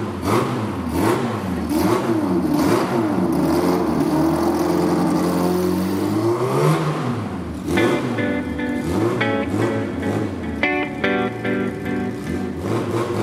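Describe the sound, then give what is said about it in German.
Race car engines roar at the Le Mans 24-hour race, a loud continuous drone whose pitch sweeps up and down repeatedly, with brighter high-revving tones later on. “Gebannt beobachten die Motorsportfans den Lauf des 24-Stunden-Rennens von Le Mans.”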